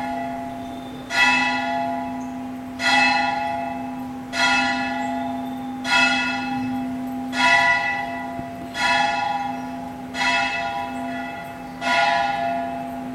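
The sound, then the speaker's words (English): A festival bell rings eight evenly spaced strikes, each a bright metallic clang that decays slowly, over a steady low hum throughout. “Festival bell.”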